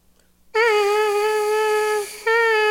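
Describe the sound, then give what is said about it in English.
A brass mouthpiece is buzzed on its own with air audibly escaping, giving a loud, steady, reedy tone with a breathy hiss around it. The note holds about a second and a half, stops briefly, then returns at the same pitch. “some people you might play in the mouthpiece and you'll get this kind of sound.”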